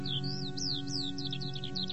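A sparrow chirps in a quick run of many thin, high notes, several with a sharp downward sweep, over a low steady hum.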